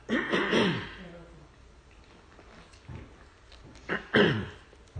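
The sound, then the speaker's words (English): Throat clearing: loud rasping, gruff bursts at the start and again near the end, with quieter throaty noises in between. “I've got something in my throat.”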